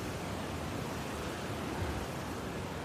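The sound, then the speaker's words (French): Roaring of Niagara Falls, with about 560,000 litres of water pouring over every minute: a steady, dense wash of rushing-water noise that holds evenly throughout with no pauses and no voices. “Avant même de voir les chutes, on les entend. Et ouais, sachez qu'il y a pas moins de 560 000 litres d'eau qui s'écoulent par minute sur les chutes du Niagara.”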